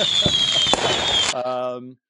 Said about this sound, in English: Can you put in firework sounds? I can probably do that. Thank you. Firework sounds. There they are.